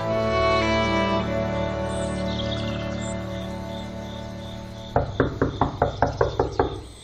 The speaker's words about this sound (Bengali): হঠাৎ দরজায় জোরে আঘাত শুনে চমক ভাঙে তার।